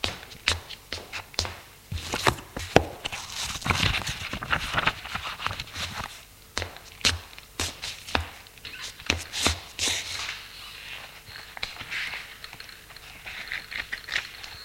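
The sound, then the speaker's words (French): Footsteps of a man getting up and walking to his desk, heard as a series of irregular soft taps and shuffles with some rustling, faint and uneven in rhythm. “Il se lève pour aller prendre à son bureau un petit livre rouge.”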